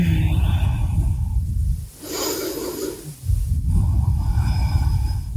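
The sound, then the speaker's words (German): Deep breathing during a yoga stretch, long airy inhales and exhales with a softer, hissing breath in the middle, steady and fairly loud. “Atme tief.”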